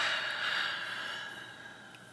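A deep breath through the nose during a calming breathing exercise: one long, airy rush of air that starts full and slowly fades away, with no talk.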